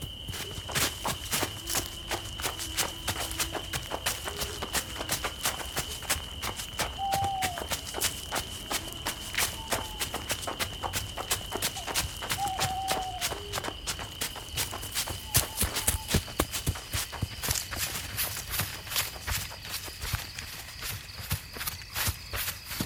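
Rapid running footsteps of people fleeing in a chase, a long run of quick, even steps. A steady high-pitched tone runs beneath them throughout.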